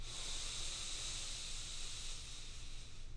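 A slow, deep inhale at the close of a breathing exercise, heard as a steady, soft airy hiss that holds evenly for the whole stretch without a break.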